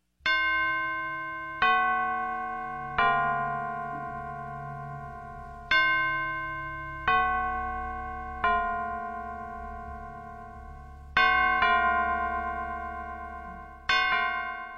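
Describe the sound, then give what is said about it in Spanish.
Church bells ring on All Saints' Day, November 1, in a Maya Achí custom. Separate clear strikes come at uneven intervals, each ringing bright and fading slowly, with pitches that differ from strike to strike. “El tañer o repique de las campanas se hace sonar a partir de las 12 horas del 1 de noviembre, Día de los Santos de cada año”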